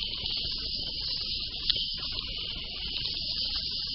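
Insects chirp in a continuous, steady, high-pitched trill that never breaks, over a faint low rumble. No voices are heard.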